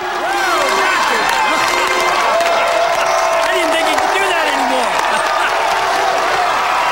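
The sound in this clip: Crowd cheering and applauding after a slam dunk that shatters the backboard at a dunk contest: a loud, sustained roar of many excited voices with shouts and clapping throughout.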